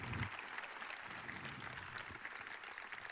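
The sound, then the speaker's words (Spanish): Audience applause at a murga competition in Pontevedra, a steady wash of clapping that holds at an even level throughout, with no talk over it. “Entón, aplaudimos un pouco a Rabachol, pobrecito.”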